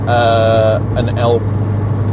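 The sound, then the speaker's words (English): Car engine drone while overtaking on the road, a steady low hum running under a person talking. “Excuse me, I'm doing an overtake that I probably shouldn't. There we go.”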